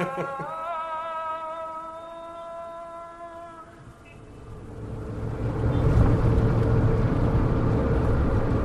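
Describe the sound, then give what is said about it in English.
A car drives on a six-lane highway between Abu Dhabi and Dubai. A steady harmonic hum fades, then a broad rushing road roar builds and holds loud to the end. “We're on our way now from Abu Dhabi to Dubai, driving here in Olean. How long will it take us? From Abu Dhabi to Dubai, 1.5 hours on a 6-lane highway.”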